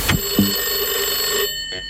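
A telephone rings with a steady, trilling bell tone that fills most of the two seconds and is cut off abruptly near the end.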